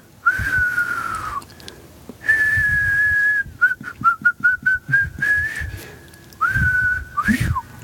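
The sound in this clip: Whistling that imitates a Japanese bush warbler: clear, loud tones with two long held notes, a run of short separate notes, and a final note that ends in a quick upward-then-downward flourish. Faint low thumps sit beneath the whistling.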